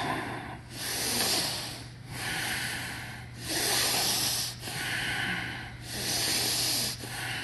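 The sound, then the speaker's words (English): Deep breaths drawn in and pushed out through the nose, paced with shoulder raises in a warm-up exercise: a steady run of long, loud, hissing breaths, each followed by a brief dip before the next. “Breathe in as you take your shoulders up. Exhale as you bring them down.”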